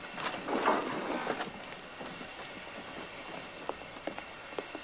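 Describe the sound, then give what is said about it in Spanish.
Faint rumble of a train in the 1965 film Doctor Zhivago, moving off the main line onto a dead-end siding, with a few light clicks from the wheels over a low, steady drone. “El tren ha salido de la vía principal y ha entrado en una vía muerta.”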